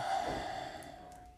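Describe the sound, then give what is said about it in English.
A single slow, deep breath, drawn in and let out as one continuous airy rush that starts strongest and gradually fades, heard alone without talk. “begin by taking a slow, deep breath in and out.”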